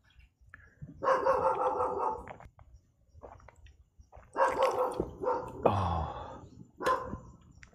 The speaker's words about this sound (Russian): Собак тут местных дофигища.